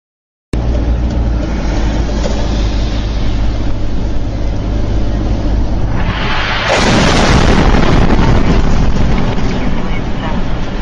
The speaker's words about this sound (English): Showing a missile or something blowing up right in front of them on that Kerch Strait Bridge.